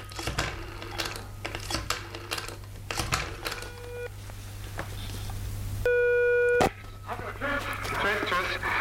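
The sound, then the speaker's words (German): A telephone call placed to a studio: short electronic dialing tones, then a steady ringing tone, heard among people talking. “Wer arbeitet im Studio 6? Ich werde mal anrufen.”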